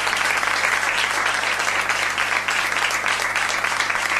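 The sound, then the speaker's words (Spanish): Applause from an audience: a steady, dense wash of many hands clapping at an even loudness, with no talk over it. “Sí que se merece el aplauso.”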